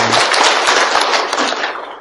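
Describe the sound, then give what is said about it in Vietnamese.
Audience applause at a Buddhist meditation retreat ceremony: a dense, loud, crackling wash of many hands clapping together, sustained for about two seconds before thinning slightly toward the end. “Xin quý vị cho một tràng pháo tay để...”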